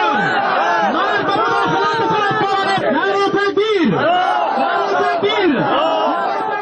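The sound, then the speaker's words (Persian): A crowd of protesters chants at a demonstration in Charikar, Parwan province, Afghanistan, against a memorial ceremony for Taliban leader Mullah Omar. Many voices shout together continuously, loud and dense throughout. “صدها تن از ساکنان ولایت پروان در اعتراض به برگزاری مراسم فاتحه برای ملا محمد عمر رهبر طالبان در افغانستان دست به مظاهره زدند.”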